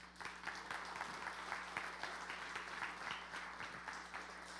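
Faint, steady applause from an audience at a church worship service welcoming a pastor, a continuous patter of many hands with no break.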